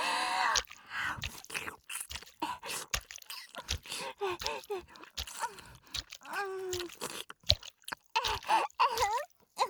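Wet mouth nibbling and chewing on ears produces many crisp, crackly clicks and squishes in irregular bursts, with occasional soft voiced murmurs and breaths between them.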